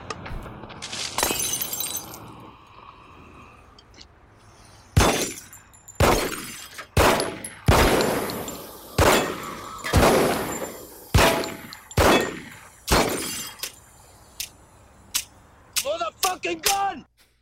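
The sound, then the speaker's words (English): Gunshots from a handgun in a TV scene: nine loud, sharp shots at a steady pace of about one per second, then several quick, light clicks as the empty gun keeps being fired. “and I had to count the gunshots because I was curious for some reason. But he shoots nine times and starts clicking. He's like, motherfucking gun! Yeah. I have a clip of that.”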